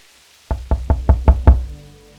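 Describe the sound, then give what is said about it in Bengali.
Six evenly spaced knocks on a door at night, landing in a steady, even rhythm, each a loud, dull thud, then quiet. “পরক্ষণেই আবার দরজায় টকা পড়ল”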